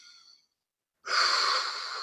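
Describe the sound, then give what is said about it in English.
One big, deep inhale through the mouth. A long, loud, airy rush of breath begins suddenly after a quiet pause and holds steady to the end, with only slight fading. “Take one big deep breath. Inhale.”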